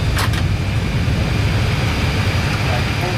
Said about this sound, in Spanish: Freno puesto, compresión, APU available, paramos el motor 1, el 2